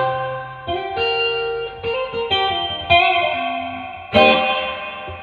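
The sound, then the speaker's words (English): Guitar played through an effects pedal set to reverb with delay: a few struck notes and chords, each ringing out with a long, washy tail and faint repeating echoes, the last chord landing louder. “It sounds like a reverb. That's pretty cool. But yeah, you can hear it's got a little bit of like, you can hear timing of the delay in it a little bit.”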